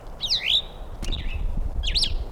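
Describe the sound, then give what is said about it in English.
A bird sings three bright, warbling phrases with swooping high notes, separated by short gaps, over a low steady background rumble. “Two females present evidently. Two quiet birds, one singing.”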